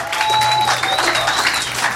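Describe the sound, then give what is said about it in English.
Audience at a comedy show claps steadily for a comic being introduced, a dense, even wash of many hands lasting about two seconds at a loud, constant level. “Clap your hands for Keith Carey”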